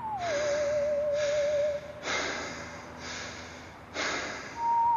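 Heavy breaths come from the mouth of a tunnel on a cool, foggy night. Several loud breaths or snorts arrive at roughly one-second intervals, with a thin steady tone running faintly beneath them.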